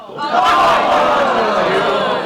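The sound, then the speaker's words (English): A crowd boos a congressman at a town hall, a dense, sustained roar of jeering voices that swells early and holds steady to the end. “The audience kept booing.”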